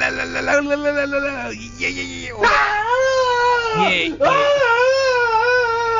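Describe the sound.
A human voice imitates loud, exaggerated wailing and sobbing. Its long quavering cries swoop and bend in pitch, one after another.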